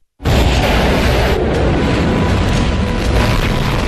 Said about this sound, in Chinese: 随着一声巨响，某新型导弹呼啸而出，精准命中数百公里外的蓝军多重防护阵地目标。